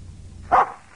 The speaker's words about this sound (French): Et un chien.